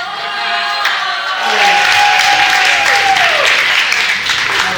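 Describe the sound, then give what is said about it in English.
Audience applause at a live quiz event: dense, steady clapping that swells slightly after the first second and holds with some voices mixed in. “Can we get a round of applause for our lovely audience?”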